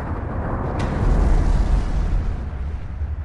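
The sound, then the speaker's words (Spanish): A deep, rumbling roar from a Soviet atomic bomb test explosion, a dense low-heavy rumble that holds steady for the whole clip and swells slightly in the middle, with a faint sharp crackle near the start. “la primera bomba atómica soviética está lista. Es un duplicado de la bomba estadounidense, hecha posible gracias al espionaje intensivo.”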